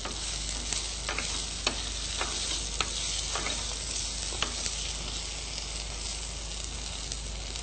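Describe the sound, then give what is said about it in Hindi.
Potatoes sizzle and fry in a kadai over a full gas flame while being stirred. A steady, loud hiss runs throughout, broken by intermittent light scraping clicks from the stirring. “आलू डाल के हम इसको थोड़ा mix कर लेंगे। Gas आपका flame full पे ही होना चाहिए।”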